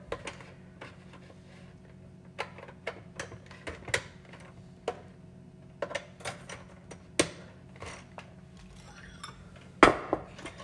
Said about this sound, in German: jetzt muss ich das hier aber auch wieder umrühren, damit ich auch noch fertig werde.